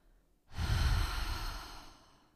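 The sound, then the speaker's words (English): A long exhale through the mouth, a single airy breath that starts abruptly, stays steady and strong, then gradually fades away. “Taking another deep breath in through your nose and holding it, and exhale through your mouth.”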